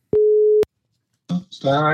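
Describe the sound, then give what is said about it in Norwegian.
A telephone busy signal sounds as one steady, clear beep of about half a second. After a short silence, a voice begins talking. “Nå ringer vi han Stein.”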